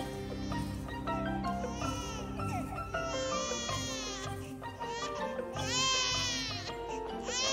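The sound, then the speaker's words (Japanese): A baby wails over and over, each loud cry rising and falling in pitch. Music plays underneath the repeated crying. “そいつを泣き止ませろ。もう我慢の限界だ。 俺だってこんなうるさいやつは初めてだ。 泣き止まねえよ。”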